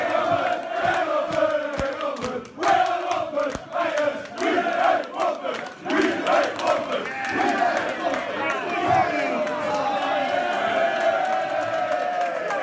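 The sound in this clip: Football fans sing a Watford chant in a loud, continuous crowd roar. Many voices hold the rhythmic singing throughout.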